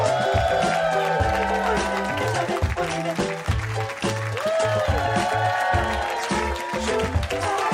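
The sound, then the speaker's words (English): Studio audience applause with some cheering, a dense wash of clapping that continues under loud music for the whole stretch. “Give it up for John.”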